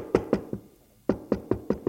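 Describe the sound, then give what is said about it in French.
Knocking on a wooden door: a few hollow knocks, a short pause, then a quicker run of similar raps, all fairly soft and dry. “La mère frappe à une porte en bois.”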